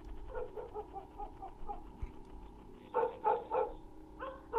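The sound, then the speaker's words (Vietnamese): A dog barks intermittently out on the main road, softer yips at first and then a louder cluster of several sharp barks, with a last bark near the end. “Bất giác ở ngoài con lộ lớn có tiếng con chó nó sủa nhấm nha nhấm nhằng.”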